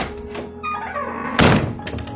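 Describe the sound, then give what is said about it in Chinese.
A box lid slams shut with a single loud, heavy thunk partway through, set against quieter handling noises before and after. “贝斯纳医生啪的一下关上盖子，然后放下盒子，跺着脚走到甲板上去”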